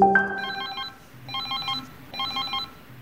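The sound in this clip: Electronic telephone ringing on a call to a service hotline: a brief tone at the start, then three warbling, high-pitched ring bursts at an even rhythm with short pauses between them.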